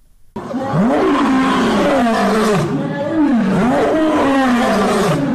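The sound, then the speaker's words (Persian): A lion roaring in a series of deep, throaty bursts, each swelling and falling in a rough moaning contour, loud and continuous for about five seconds. “گزارش با صدای نعره یا قرش یک شیر آغاز میشه.”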